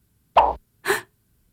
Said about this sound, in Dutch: Oh, nieuw WhatsApp-bericht van je hartsvriendin Lola.